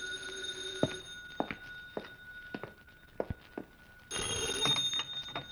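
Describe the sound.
A telephone rings loudly near the end, after several light footsteps tap across the floor in an uneven rhythm.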